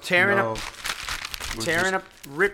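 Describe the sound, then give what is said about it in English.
A paper contract is torn up, giving a burst of crinkling and ripping between stretches of a person talking. “I'm tearing up this contract.”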